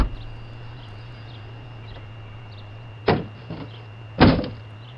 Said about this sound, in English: knock on the door here.